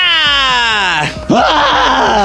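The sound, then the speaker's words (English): A voice imitates a primal scream while talking about a gym, letting out a long, loud, drawn-out 'ah' that sinks in pitch, then breaks into a second shorter cry. “Sometimes we do kind of like primal scream therapy in the gym, being like, ah,”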